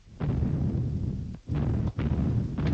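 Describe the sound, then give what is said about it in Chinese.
Artillery shelling explosions as enemy guns bombard a mountain position in wartime: heavy, low, rumbling blasts that roar almost without break, with a few short dips between bursts and no voices. “敌人炮击武胜山，部队也朝那个方向运动了”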